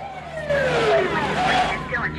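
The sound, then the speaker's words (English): Police cars arrive with sirens wailing. A falling siren tone sweeps loudly over engine and road noise, with a voice speaking over it. “A couple of cop cars arrive on the scene, and they bolt.”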